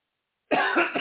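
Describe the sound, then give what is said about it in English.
Coughing from someone whose drink of water went down the wrong pipe: a short, harsh burst of coughs that breaks abruptly out of silence. “Excuse me, as the water goes down the wrong pipe.”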